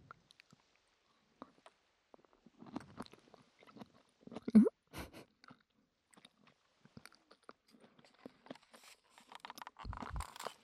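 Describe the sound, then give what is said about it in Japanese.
Crunchy kombu seaweed being chewed: faint, irregular bites and crunches, many small crackles in uneven clusters, a slightly louder burst near the middle, and quiet pauses between chews. “食感の良さそうな昆布いただきます。”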